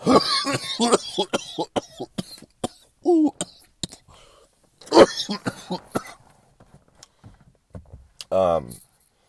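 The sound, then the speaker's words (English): Coughing from a man who had been smoking, with a few harsh coughs and throat clearing mixed in with his talking. “Man, the countless amount of hours I was smoking, that's why I started coughing.”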